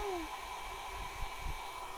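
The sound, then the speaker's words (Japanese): A hair dryer blows air to dry hair, run on its cold setting for finishing: a steady, unbroken whooshing hiss with a faint constant hum, holding even loudness throughout. “こうやって乾かした後に冷たい風を当てることでキューティクルが引き締まって髪の健康にいいんだって。”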